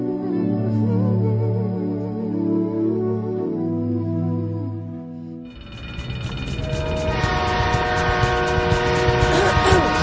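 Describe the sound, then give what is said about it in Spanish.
Train slowing to stop at the station in Ituzaingó for passengers to board and alight: a low droning tone holds for about five seconds, then gives way to a louder, broad rushing and rattling noise. “Llegando ya a la estación de Ituzaingó, está parando el tren para subir y bajar pasajeros.”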